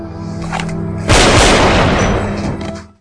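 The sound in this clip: Gunfire from a film scene in which a guard is killed: a low hum gives way to a sudden loud blast, whose heavy roar holds for over a second before fading away. No talk.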